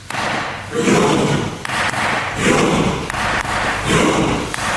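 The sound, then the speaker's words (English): Rhythmic thumping from a group of Norwegian parliament members in Oslo pretending to row, rising and falling in steady repeated swells of heavy, muffled thuds. “The sound of Norwegian fans, in this case members of Norway's parliament in Oslo's Stortinget, pretending to row.”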